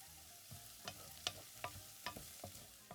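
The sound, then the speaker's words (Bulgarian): Finely chopped garlic fries in a pot with other ingredients until golden, giving a steady, quiet sizzle broken by regular light scrapes and taps of stirring, roughly two per second. “Към тях добавям и една ситно нарязана скелитка чесън. И запържвам всичко до златисто.”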